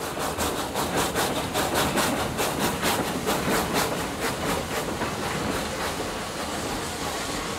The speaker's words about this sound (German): Steigung, also in der Bahner Sprache erstaunliche 200 Promille, schafft die kleine Lok. Langsam lässt der Zug die Baumgrenze hinter sich.